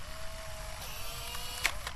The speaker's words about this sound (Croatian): Fotografija izlazi iz fotoaparata. Otac maše njome kao da je suši.